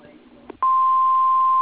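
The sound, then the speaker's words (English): An answering machine beep sounds before a message is left: one steady, loud, pure tone lasting about a second. It follows the faint tail of a recorded voice greeting. “We are unable to come to the phone now. Please leave a message after the tone. If faxing, press start now.”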